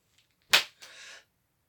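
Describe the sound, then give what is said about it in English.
A right hand whips against a left thigh, giving one sharp, loud slap that fades quickly in an otherwise quiet moment. “Let's use my right hand and whip my left thigh.”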